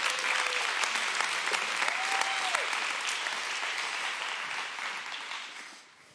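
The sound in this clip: An audience at a church gathering applauds as a couple is welcomed onto the stage. Dense, steady clapping with a few voices early on tapers off and fades out near the end.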